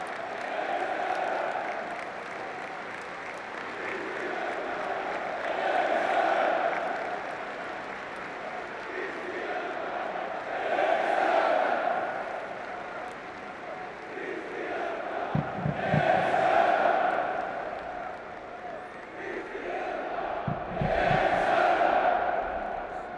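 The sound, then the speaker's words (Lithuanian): Stadium crowd chanting Christian Eriksen's name in call and response, with Finland supporters shouting one part and Denmark supporters answering. Broad roaring swells recur about every five seconds, rising and falling in a steady rhythm. “žiūrovai pasiliko stadione ir Suomijos ir galiai skanduoja Christian, Danijos ir galiai atsako Eriksen, taigi galime tai pasižiūrėti.”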